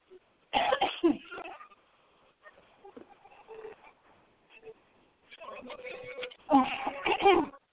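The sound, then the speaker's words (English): Coughing from choking on a piece of French bread pizza: a loud, harsh burst of coughs at the start, quieter rough breathing and throat noises in the middle, then a longer and louder run of coughing near the end. “I'm choking on French bread pizza.”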